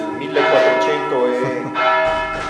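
A church bell rings from a bell tower dating to 1449. Overlapping strokes blend into a loud, sustained, shimmering tone with rich ringing overtones. The tone fades slightly toward the end.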